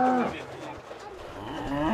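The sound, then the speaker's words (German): Cows moo in a yard behind a house in a suburb of Nairobi, Kenya: a low, drawn-out bovine lowing with strong harmonic tone, loud and continuous, swelling again toward the end. “Die Kühe sind irritiert. Eigentlich haben sie fast immer ihre Ruhe.”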